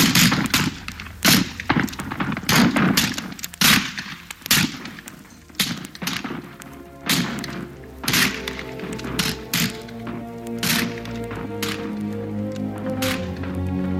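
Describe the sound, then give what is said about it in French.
Volley of gunfire in a street shooting: many sharp, loud cracks in irregular succession, with sustained musical tones building underneath in the second half. “De lui, la fusillade éclate. Frappé de trois balles, il se renverse sur le pavé.”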